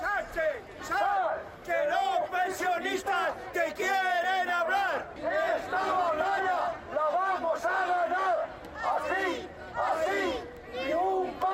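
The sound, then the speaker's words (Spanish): Crowd of pensioners protesting in the street outside the Spanish lower house of parliament, loudly chanting slogans in unison in rhythmic bursts separated by short pauses. “Y mientras esto ocurría en el interior de la Cámara Baja, en el exterior, nueva protesta de la Coordinadora en Defensa del Sistema Público de Pensiones.”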